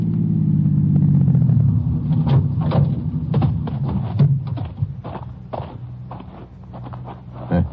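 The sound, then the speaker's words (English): A car pulls up beside a parked car: its engine rumble drops in pitch as it slows, then settles into a softer idle broken by scattered clicks and knocks. “Pull up beside it, will you? Well, certainly.”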